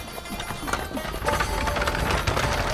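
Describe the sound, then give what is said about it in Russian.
Clip-clop of horse hooves pulling a rich chariot along a road, a steady running beat over dense rolling noise that grows slightly louder partway through. “О, навстречу путнику едет повозка. Колесница.”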